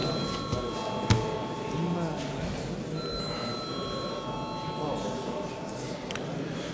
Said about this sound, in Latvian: Lūdzu zvanu.